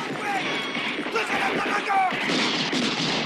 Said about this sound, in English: The amigos now shoot from on top of the roof.